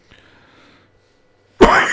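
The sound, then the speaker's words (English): A single sharp, loud cough bursts out at the end, after a nearly silent stretch with only faint low noise. “Oh gosh, sorry, it should be a cough button, but there isn't.”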